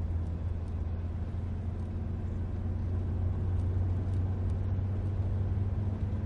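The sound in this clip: A car being driven produces a steady low engine rumble and road noise that stays constant throughout, without any voices.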